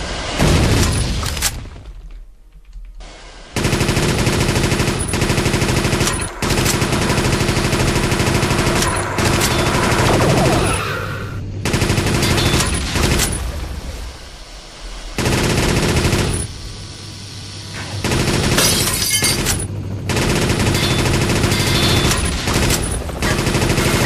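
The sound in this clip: Rapid machine-gun fire in a shooting video game, loud sustained bursts with heavy booming impacts, broken by short quiet gaps early on and around the middle.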